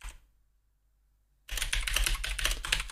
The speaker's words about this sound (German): Ich muss hier noch was auf meine schlaue Liste schreiben.